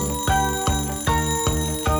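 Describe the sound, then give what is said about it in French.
An alarm clock ringing beside a bed: five bright metallic bell strikes in a quick, steady rhythm, loud and ringing on between strikes, with no voices. “Je suis si bien blottie dans mon lit, mais cette vilaine sonnerie me gâche la vie.”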